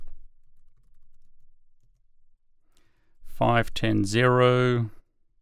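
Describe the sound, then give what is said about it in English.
Soft, rapid keyboard typing as a Linux install command is entered on an Apple M1 computer. The faint patter of keystrokes runs for a few seconds, then a person speaks. “And then I'm going to type apt install Linux headers”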